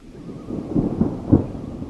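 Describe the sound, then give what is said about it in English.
Thunder on an early morning by a lake: a low, rolling rumble that swells a few times and stays deep and continuous, with no voices. “I'm not sure exactly what time, but I've been awakened by thunder.”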